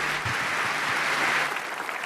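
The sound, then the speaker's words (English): Audience applause at a conference talk, with dense, steady clapping that fills the whole clip and eases slightly toward the end. “A last applause before we go over to the next topic.”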